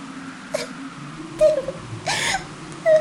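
Crying comes as a few short, fairly faint whimpering sobs and wails, separated by pauses over a low background hum.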